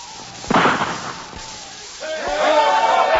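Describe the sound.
A single rifle shot fired to cut a rope, a sharp loud burst near the start that decays quickly, followed by a voice.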